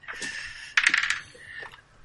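A die dropped during a dice game clatters onto a hard surface, one sharp impact followed by a quick run of rattling bounces that fade within about half a second.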